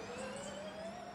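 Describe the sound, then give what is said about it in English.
Cadillac V8 race car pulling out of the pit lane during the 24-hour Daytona endurance race, heard as a steady engine whine that climbs slowly in pitch at an even, moderate loudness. “That's the sound of Jack Aitken going back out on the fast lane.”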